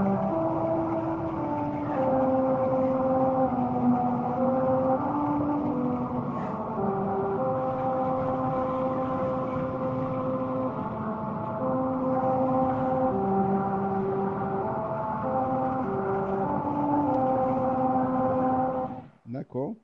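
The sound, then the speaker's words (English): Musical rumble strips on Route 66 in New Mexico, driven over at 45 miles an hour, hum out America the Beautiful as a droning tune of stepped notes over steady road rumble, which cuts off abruptly at the end. “So the rumble strips will play a rendition of America the Beautiful. And I have a sample. And here's what it sounds like if you're traveling on the stretch of road on Route 66 in New Mexico at 45 miles an hour.”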